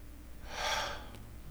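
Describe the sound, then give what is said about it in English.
A person takes one audible breath, a brief breathy inhale that swells and fades within about half a second, heard alone without talk. “take a breath”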